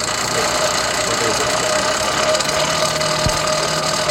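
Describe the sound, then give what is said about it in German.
Steady whirring drone of an old forge blower driven by a bicycle rear wheel, a constant, loud rumbling hum with a faint tonal whine running throughout and no talk. “Was man hier gerade ganz wunderbar hört, ist diese wunderschöne alte Esse, die wir haben. Die, habt ihr das schon beschrieben, mit einem alten Fahrradhinterrad angetrieben wird.”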